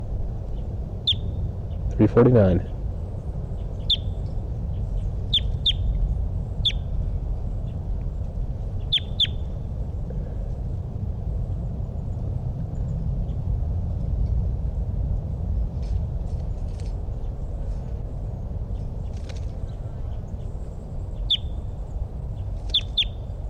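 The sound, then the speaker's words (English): Short, high bird chirps recorded in the field, repeated many times in scattered bursts over a steady low background hum. “It's recording. This is bird 349.”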